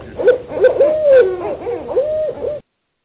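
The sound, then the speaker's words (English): Barred owl hooting as a Halloween sound effect: a loud run of several hoarse, hooting calls with gliding, wavering pitch, cutting off abruptly at the end. “Oh, that was cute. Yeah, that's my barred owl. They like to laugh.”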